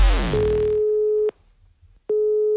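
A telephone line tone sounds on an outgoing prank call: a steady mid-pitched beep holds for about a second, falls silent, then starts again after a short gap.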